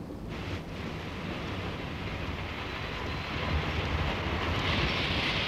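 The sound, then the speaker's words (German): A train stands at a fog-bound station with a broad, continuous rumble of engine and carriage noise that swells a little louder toward the end. “Mach schnell, der Zug fährt gleich wieder ab.”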